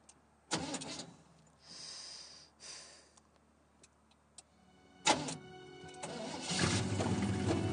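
An engine starts after a few rough cranking bursts separated by quiet gaps. It then catches and settles into a steady running hum.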